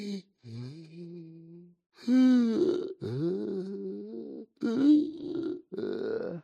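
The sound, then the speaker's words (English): A voice imitates irregular breathing during sleep with a series of halting, drawn-out voiced breaths, groans and gasps, broken by short pauses and uneven in pitch. “I was sleeping sort of one night, and my breathing pattern was a little off. It sounded kind of like,”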